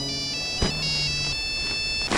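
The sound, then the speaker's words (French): Mobile phone ringtone plays a bright electronic melody of sustained tones shifting between a few notes, clear and alone with no talking. “Non, mais ce que vous avez dans votre main? Bah, un téléphone portable.”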